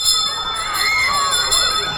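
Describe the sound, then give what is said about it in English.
A school bell rings continuously with a bright, metallic, sustained ringing that holds for the whole stretch, with softer wavering tones mixed underneath. “And there goes the bell. It's time for a school call.”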